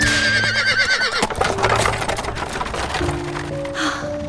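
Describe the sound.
A horse neighs beside a carriage: a loud, wavering, high whinny that lasts about a second, followed by continuous rough noise.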